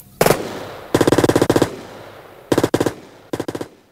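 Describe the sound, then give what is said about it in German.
Automatic gunfire as a gang opens fire on FBI agents in a shootout: several loud, rapid bursts of sharp cracks separated by short pauses, with no voices. “Dillinger und seine Leute hatten das Feuer eröffnet. 4 FBI-Beamte kamen ums Leben.”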